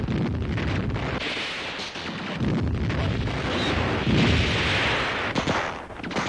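Machine-gun fire sweeps across a village battle at night, a dense, sustained rattle of bursts over a heavy low rumble. It stays loud and unbroken for the whole stretch, with no voices.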